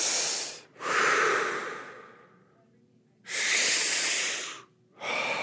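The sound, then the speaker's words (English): Deep, rapid breathing in and out during a breathing exercise: loud, airy rushes of breath in quick pairs, separated by a longer quiet pause in the middle, with no talking. “It's this crazy deep breathing, so you're oxygenating your body, just, and then you let out not all of your air, but then you breathe it in again.”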